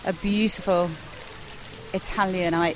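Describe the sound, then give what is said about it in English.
Steady, soft rush of splashing water from a fountain beside the swimming pool of a villa hotel in the Andalusian foothills between Marbella and Estepona, running continuously beneath a person talking. “The noise you can hear behind me is the fountain next to the swimming pool of the Villa Padierna”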